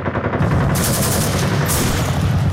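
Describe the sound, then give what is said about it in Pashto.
Gunfire in rapid succession, a dense, loud crackle of repeated shots running steadily through the whole clip without pause. “پرله پسې ډزې سوې.”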